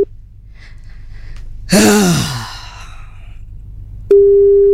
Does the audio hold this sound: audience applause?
no